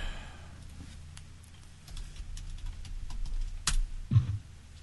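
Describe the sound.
Typing on a computer keyboard as a show's name is entered: a run of faint, irregular key clicks, with a few louder taps toward the end.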